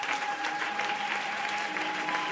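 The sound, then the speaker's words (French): An audience rises and applauds to acclaim the Lord during a church service. Many hands clap in a steady, dense patter that stays even throughout. “Est-ce que nous pouvons nous lever ensemble de partout là où nous sommes? J'aimerais que nous acclamions bien le Seigneur. Tu as raison de pouvoir acclamer le Seigneur.”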